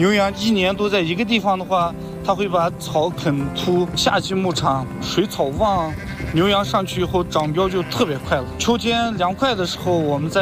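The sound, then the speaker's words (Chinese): Sheep bleat loudly and almost without pause as a flock runs after its white lead sheep during seasonal pasture herding, with many overlapping calls of varied pitch forming a dense, wavering chorus. “羊来了，来了，你看一吹，真听话呀。它现在跟着领头羊在跑，是吧？”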